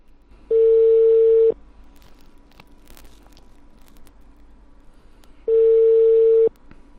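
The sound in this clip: A phone call's ringback tone, placed to a credit collection line: two long, steady mid-pitched beeps of about a second each, roughly four seconds apart, with faint line hiss between them.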